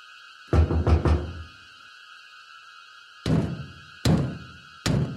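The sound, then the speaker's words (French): Knocking on a door by visitors: a quick cluster of about three raps, a pause, then three separate heavy knocks spaced out, over a faint steady hum. “club des Longs Couteaux, des visiteurs se manifestent à la porte de Chapeau Mou. Alors, les choses se corsent.”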